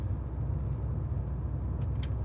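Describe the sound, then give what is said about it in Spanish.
A car being driven: a steady low rumble of engine and road noise, even and continuous, with no talking. “Yo mientras sigo conduciendo, ¿eh?”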